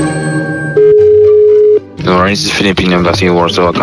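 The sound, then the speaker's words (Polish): Telephone line tones sound while calling the embassy of the Philippines: a steady, loud single tone holds for about a second, then a voice begins speaking. “A jakby tak teraz zadzwonić do ambasady Filipin?”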